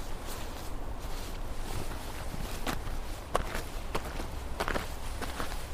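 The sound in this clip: Footsteps walk around behind a house, with a few irregular, sharp steps standing out above steady, dense background noise.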